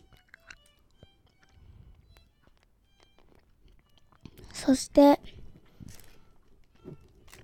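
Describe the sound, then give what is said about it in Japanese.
Hard candy drops tipped back into a metal candy tin after being poured out onto a paper bag: a short cluster of bright, ringing clatters in the middle, with only faint handling noise before and after. “好きなものを食べて他の飴をドロップの缶の中に入れた時の音です。”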